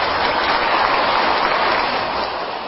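Audience clapping at a Buddhist dharma lecture, a loud, continuous rush of many hands that stays even and eases slightly near the end.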